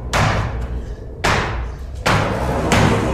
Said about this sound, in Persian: سمت در پشتی میره و با چکش به قفل در میکوبه.